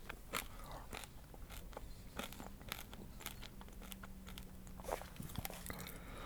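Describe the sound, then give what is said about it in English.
Crunching of little Peruvian pop kernels being chewed: many sharp, irregular crackling bites and crunches over a steady low background hiss, with no talking. “Oh, so delicious, these little Peruvian pop kernels.”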